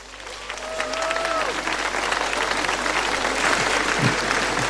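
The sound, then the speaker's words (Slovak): An audience applauds at an award presentation, a sustained, dense wash of clapping that builds slightly and stays loud and steady throughout. “Poprosím veľký potlesk.”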